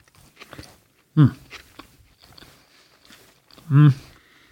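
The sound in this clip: A person biting and chewing a burger with pickles and onions, with two loud, crunchy bites standing out over quieter, irregular chewing sounds.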